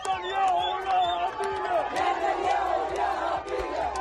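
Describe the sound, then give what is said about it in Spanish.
A crowd of Palestinians in Khan Younis celebrates the Gaza ceasefire with loud, continuous group chanting and shouting, many voices rising and falling together in a rhythmic, sustained roar. “Cientos de palestinos, como escuchas, han salido para celebrar el acuerdo que pone fin, de momento, a la guerra en Gaza.”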